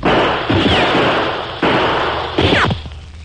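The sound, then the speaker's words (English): Gunshots are exchanged in a radio-drama western shootout among boulders and trees, with a few loud, sharp cracks spaced over a few seconds, each trailing off into a brief decaying echo. “After an exchange of shots, there was silence.”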